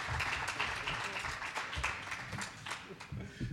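An audience claps for a newly engaged couple at a live show, a dense, moderately loud patter of many hands that rolls on steadily and eases slightly near the end.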